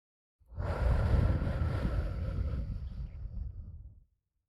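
One long, breathy rush of air is blown toward the listener, starting abruptly, staying strong for about three and a half seconds, then tapering off, with a windy, gusting texture.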